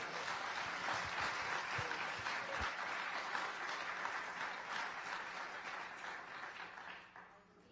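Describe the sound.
A church audience gives dense, steady applause to welcome a guest at a morning service. The clapping holds for about seven seconds, then trails off.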